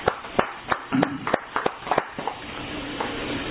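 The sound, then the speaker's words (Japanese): Scattered handclaps celebrate a boy's 10th birthday, several sharp, irregular claps spread over the first two seconds before giving way to a low background hum. “今日は三綿さんのお孫さんの寸吾くんが、満10歳を迎えられましたので盛大な拍手でお祝いを”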